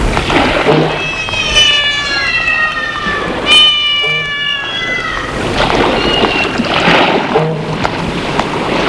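A cat meowing a few times, with drawn-out, wavering cries that are fairly loud over a steady background wash.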